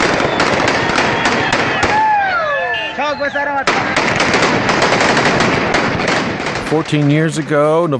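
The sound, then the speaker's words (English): Armed fighters firing weapons and yelling in the streets of Kunduz: loud, rapid bursts of automatic gunfire crackle almost without pause, with men's shouting voices rising over the shots in places. “here's the sound of Taliban fighters on Monday firing weapons and yelling in the streets of Kunduz.”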